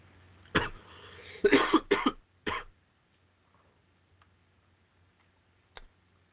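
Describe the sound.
Harsh coughing from a person who choked on weed while smoking a blunt: a few rough bursts bunched together in a short fit, then near silence with one faint click near the end.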